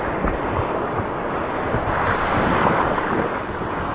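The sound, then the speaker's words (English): River rapids rush in a dull, steady roar, picked up by a waterproof microphone attached to a paddler's dry suit as he plunges off the rocks into the water. “They push off the rocks like seals plunging into rushing water. Tree has agreed to wear a waterproof microphone attached to his dry suit, giving us a play-by-play. Here we go.”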